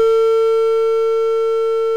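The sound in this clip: After a call disconnects, a telephone tone sounds as a loud, steady pure tone that holds unbroken for about two seconds and then cuts off.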